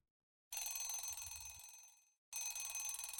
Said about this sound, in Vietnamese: 4:15, chuông báo thức vang lên.